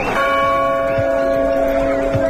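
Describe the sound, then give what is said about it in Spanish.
Church tower bells ringing in a small Aragonese village in summer, a loud, steady bell tone with bright, lingering partials that sustain throughout, with no voices. “El de las campanas de la Torre de la Iglesia, el del bullicio de unas calles más concurridas de lo habitual”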